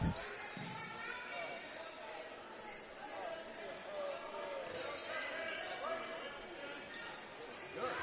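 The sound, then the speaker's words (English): A basketball is dribbled on the court during the third quarter of a game, its bounces blending into a steady background din. “Keeps the dribble.”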